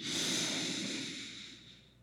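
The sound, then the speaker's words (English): A deep, steady breath during a guided breathing exercise: one continuous, soft, airy rush of air, strongest at the start and slowly fading over about two seconds, with no talking. “And let it all out. Let's take a deep breath together.”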